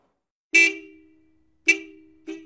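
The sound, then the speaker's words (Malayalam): Car horn honks from an arriving car: three sharp toots, the first two long and slowly fading, the last shorter and cut off, each loud against silence. “ഒരു കാറിന്റെ സൗണ്ടല്ലേ ആ കേട്ടത്?”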